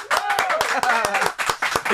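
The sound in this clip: Applause from a small group in a radio studio: brisk, uneven hand claps packed close together, with voices whooping and calling out over the clapping the whole way through.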